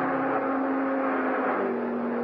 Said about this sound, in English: the people watching the test winced as the cars thundered by, just as if they expected the autos to fall apart any second